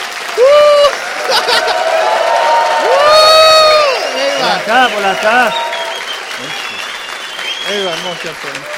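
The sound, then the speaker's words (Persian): Loud audience applause celebrating a coach, with cheers, whoops and shouting voices rising over the clapping; the noise stays full and lively throughout, with calls and hoots breaking out in bursts. “افتخارش محکمتر دست بزن.”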